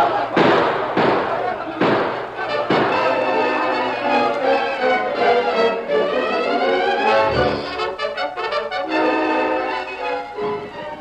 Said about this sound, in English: To your post, men. Open fire. Open fire.